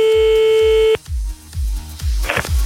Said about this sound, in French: Et jusque là tout va bien, ça sonne. Ce serait mieux si ça décroche.